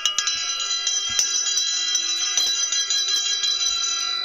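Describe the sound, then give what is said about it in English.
A camel bell rung to get a room's attention gives bright metallic jangling, with many quick strikes over a sustained ringing tone that carries on for about four seconds. “for anybody that doesn't know, this is a camel bell. And when I was based in the Middle East, I would always use these at the beginning of the functions that I would give to get everybody's attention.”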